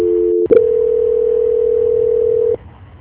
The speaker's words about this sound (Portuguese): Para mim só parecia que estava chamando